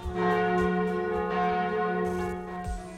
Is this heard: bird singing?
no